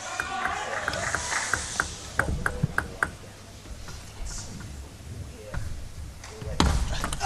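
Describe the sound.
Table tennis ball strikes during a serve and rally, a quick series of sharp, light clicks tapping back and forth, with a faint crowd murmur underneath.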